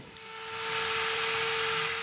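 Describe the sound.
A milling cutter carves a block of ice at a winter festival in a city park, giving a steady hissing grind with a constant whining tone that swells in loudness over two seconds.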